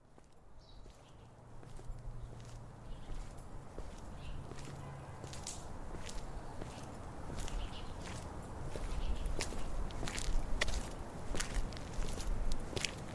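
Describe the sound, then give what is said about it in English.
Footsteps walking at a regular pace, many steady crisp steps in an even rhythm that grow slightly louder toward the end, with a low hum underneath at the start. “Walking at a regular pace so as not to draw attention to myself, I cursed my luck again”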